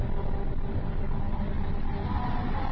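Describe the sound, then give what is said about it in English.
Car tires rolling at 55 miles an hour over a grooved musical road cut to play the William Tell Overture, heard as a steady, loud, low roar and hum that holds without a break from start to finish. “When you drive over it at 55 miles an hour, the tires act kind of like the needle on a phonograph record, and the road plays the William Tell Overture.”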